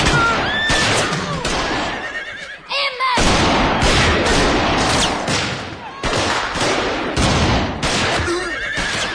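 Rifle gunfire in a chaotic fight: several sharp, loud shots crack out amid continuous, frantic horse whinnying and dense noise.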